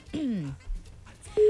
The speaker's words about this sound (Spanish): Ahí está entrando la llamada.